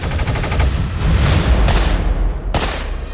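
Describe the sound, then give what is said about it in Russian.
Gunfire from a Tokarev TT pistol, the first Soviet self-loading pistol, sounds as a dense, continuous barrage of many rapid, loud shots. Sharper, louder reports stand out near the end. “Пистолет ТТ.”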